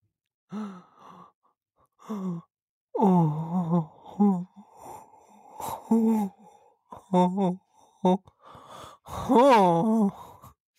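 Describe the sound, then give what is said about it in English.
A deep cleansing breath taken by a worked-up person comes out as a series of loud, voiced sighs and groans, long drawn-out exhales broken by short breathy gasps, the last sigh swelling and wavering in pitch. “Can I take a cleansing breath?”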